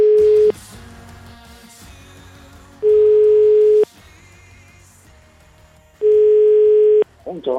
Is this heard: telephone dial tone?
yes